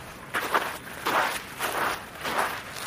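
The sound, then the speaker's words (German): Footsteps climb from a slippery path up onto snow, a few soft, crunching steps at an unhurried, uneven pace, fairly quiet, with no talk. “Nein, wir gehen auf den Schnee, komm. Wir gehen auf den Schnee. Wir gehen auf den Schnee rauf.”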